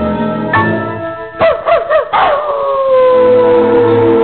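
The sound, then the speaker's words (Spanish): A lone, lost dog howling and barking for hours: loud, wavering, drawn-out howls with a short burst of yipping barks in the middle, then a long sustained howl that slowly sinks. “Hace 4 horas que ese perro no para de ladrar su soledad.”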